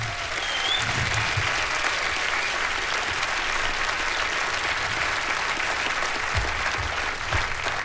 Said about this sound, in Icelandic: Jóhannes og félagar, Slow Train, gefum þeim gott klapp, allir hérna.